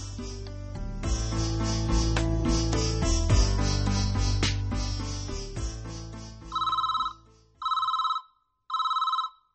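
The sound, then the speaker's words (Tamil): A telephone rings in three even electronic bursts, each a steady trilling tone, after loud music stops. “என்னங்க phone அடிச்சுக்கிட்டே இருக்க, யாருன்னு பாருங்களேன்.”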